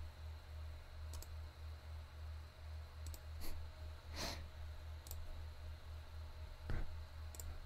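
A computer mouse clicks several times at irregular intervals. The clicks are faint and sharp over a steady low hum.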